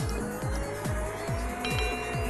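Engine of a car driving laps in a racing video game: a steady, loud motor drone with a rhythmic, repeating pulse in its tone throughout.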